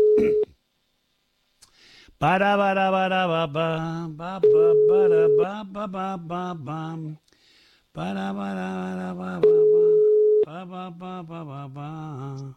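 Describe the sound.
Telephone line tones signal an incoming phone call: three steady mid-pitched beeps, each about a second long, alternate with louder melodic, music-like tonal passages.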